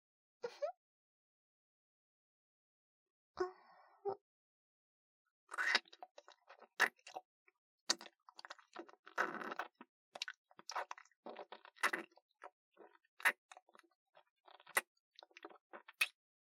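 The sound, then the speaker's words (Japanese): Wet kissing sounds: many quick, moist smacks and lip clicks, quiet and irregular, with a few isolated ones before a denser, steady stream. “じゃあ、言ってくれたご褒美に、ラブラブくちゅくちゅしよっか。”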